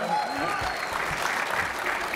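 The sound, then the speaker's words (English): An audience clapping at a live show recording: dense, steady applause fills the whole clip, with voices heard over it near the start. “You can clap.”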